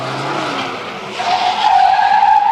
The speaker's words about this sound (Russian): Машина задним ходом едет за ним. Васька перебегает через газон на соседнюю улицу. Машина догоняет его.